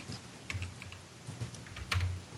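Keystrokes on a computer keyboard while someone works in a Mac's iCloud settings: sparse, irregular, soft clicks with short pauses between bursts, and no voices.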